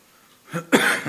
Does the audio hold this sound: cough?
yes